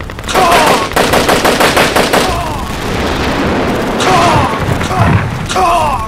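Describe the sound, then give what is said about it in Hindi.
Heavy gunfire as a tank fires on another tank in battle: a fast train of loud, sharp shots for about two seconds, then a sustained roaring rumble broken by further blasts. “निशाना लगाओ उस तीसरे tank पर। Yes sir, वो tank निशाने पर आ गया है सर। फायर।”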